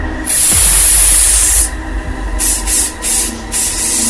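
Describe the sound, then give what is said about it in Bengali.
Body spray hissing from a bottle over a bed and around a room: one long continuous spray, then a few short bursts of hiss with brief pauses between them. “Debu তার bag থেকে body spray বোতলটা বের করে সারা বিছানা আর ঘর মা ছড়িয়ে দিল”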